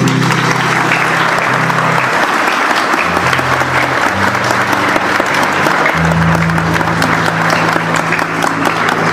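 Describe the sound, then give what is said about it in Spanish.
Loud, sustained applause for mothers at a community radio event in Cundinamarca, a dense wash of many clapping hands that holds steady for the whole stretch without fading. “Muchísimas gracias y un fuerte aplauso para cada mamá.”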